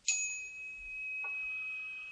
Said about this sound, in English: You can give yourself a bell again if you need the tone.